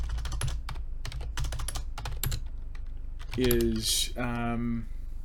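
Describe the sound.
Rapid typing on a computer keyboard: many quick, light keystroke clicks in an uneven stream for about three seconds. A person then speaks briefly as the typing stops.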